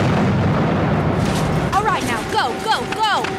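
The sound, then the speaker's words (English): An explosive charge set off as a diversion: a deep, loud rumbling blast that lasts under two seconds, then gives way to excited, voice-like cries. “Everybody, fall back. She's about to blow. All right. Fire in the hole.”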